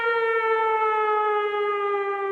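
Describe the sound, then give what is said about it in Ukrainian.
Civil defense siren sounding the air raid all-clear in Volyn: a loud, steady wailing tone with strong overtones, holding nearly level with a slight downward drift in pitch throughout. “Увага, Волинь. Відбій повітряної тривоги.”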